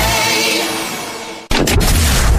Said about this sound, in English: America's birthday is coming, so we're bringing the boom right now. Fireworks in July.